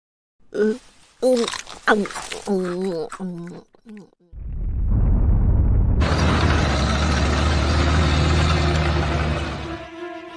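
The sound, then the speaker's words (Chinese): A cannon blast from a TV programme comes after brief talk: a deep boom that swells into a long, loud roaring blast lasting several seconds. “我这大炮连宇宙飞船都能轰下来。 哇哦，电视的声音好真实哦。”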